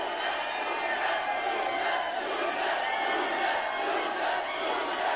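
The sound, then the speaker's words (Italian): Wrestling crowd jeering and shouting at Sonjay Dutt, a loud, sustained roar of many voices that stays unbroken and even from start to finish. “Il pubblico credo urli loser a Sonjay Dutt.”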